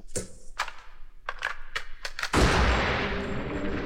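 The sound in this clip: A rapid run of sharp gunshots cracks out in quick succession, then gives way to a sustained, loud roaring burst of noise that fills the rest of the stretch.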